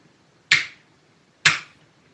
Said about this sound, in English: Turning on and off a light switch.